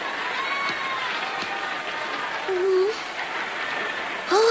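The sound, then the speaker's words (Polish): Large crowd murmuring at a fighting tournament in the animated series Dragon Ball Z, a steady roar with brief louder swells midway and at the end, while voices talk over it. “Ale tłum, niesamowite.”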